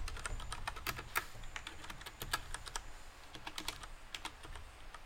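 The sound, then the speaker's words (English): Typing on a computer keyboard gives quick, irregular, faint clicking keystrokes that continue steadily throughout, with no talk. “I can't type.”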